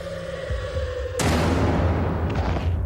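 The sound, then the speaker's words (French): A single loud gunshot tears through a quiet scene just before a woman is shot dead, bursting out over a faint low hum and leaving a dense, rumbling wash of noise that lingers to the end. “Elle ne sait pas que Guy la pointe déjà avec son arme. Une détonation déchire le silence.”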